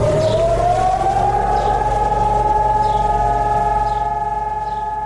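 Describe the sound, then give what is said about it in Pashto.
A remembrance alarm siren wails across Jerusalem as a memorial alarm, holding one loud, steady tone that drifts slightly upward and stays constant throughout, with a low rumble underneath. “پرون په بیت المقدس کې په دې مناسبت د ځانګړي الارم له غږولو سره په یو وخت موټرونه پر سړکونو ودرېدل، خلک ترې ښکته شول او د درناوي لپاره دو دقیقو په خاطر چپ پاتې شول.”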